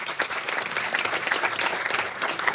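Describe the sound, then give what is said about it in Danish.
An audience applauds a guest walking on stage, a steady, dense clapping that stays loud and even throughout. “Skal vi lige give ham en kæmpe hånd.”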